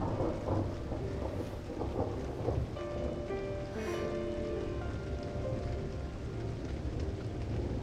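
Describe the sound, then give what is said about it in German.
Steady rain falls without pause, a dense, even hiss of drops on surfaces with a low rumble underneath and no voices. “Jetzt ist nur noch der Regen da. Das ist schön.”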